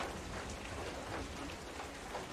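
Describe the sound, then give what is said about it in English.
Heavy rain pours down over a burning camp in a dense, steady hiss of drops that stays loud and even throughout, with no voices. “Even though the rain is coming down really heavy at this point, the camp is burning.”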